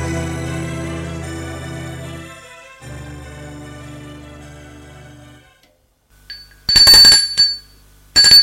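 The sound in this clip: A doorbell rings at the front door of a home in the evening: two loud, harsh ringing bursts, the first longer with a brief break, the second cut off at the end. They follow a stretch of low, steady droning tones.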